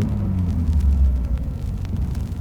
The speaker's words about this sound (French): On dirait une caravelle? Non. C'est un Boeing 707.